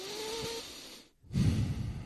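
A person imitates Brian from Family Guy taking a deep breath: after a short pause, one loud, rushing breath fills the rest of the moment.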